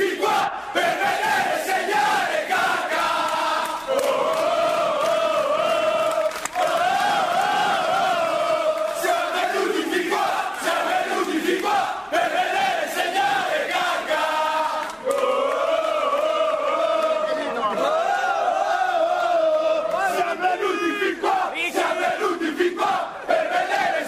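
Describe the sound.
AC Milan supporters sing a chant in honor of Kaká: a loud, continuous massed chorus with a clear unison melody and repeating phrases, delivered with stadium fervor.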